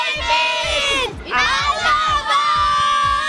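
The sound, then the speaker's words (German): Crowd of fans in the stands shouting together in unison, loud massed voices held in long bursts with a brief dip between, over a steady thumping beat. “Wir haben uns nicht gehört. Rufen wir nochmal gemeinsam.”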